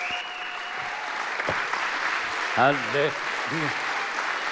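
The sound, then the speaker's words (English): An audience applauding and cheering to welcome a speaker to the stage: dense, steady clapping runs throughout, with a few shouting voices rising above it. “would you just join me in honoring and welcoming Prophet Ed Trout to the stage? Come on, lift up a loud shout.”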